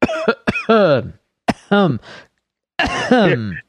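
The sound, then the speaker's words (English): Coughing breaks out mid-conversation, harsh and partly voiced. It comes in three clusters of short bursts separated by brief pauses, with the last fit longest. “Completely coincidental coughing as you said that.”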